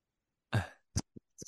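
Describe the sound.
Faint throat clearing from someone with phlegm in the throat: one longer rasping burst, then a few short, sharp hacks, with no talking.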